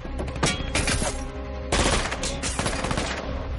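Machine gun fire from an action film: a loud, dense, continuous rattle of rapid shots that eases briefly midway and then surges back at full strength, with no talking.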